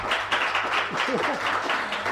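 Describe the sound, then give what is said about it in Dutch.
Steady, fairly soft applause fills a committee meeting, with a brief voice rising over the clapping partway through. “Voor deze ene keer laat ik het toe, dit applaus.”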